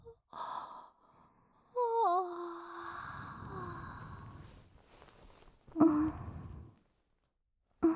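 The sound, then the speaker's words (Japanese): A person yawning, with a long, drawn-out voiced yawn whose tone slides downward, surrounded by breathy inhales and sighing exhales. “あくびしてる。そんなに眠いの？”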